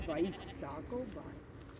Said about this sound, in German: Das Ziel ist, diese 4 separaten Schafe in den zweiten Pferch zu bringen.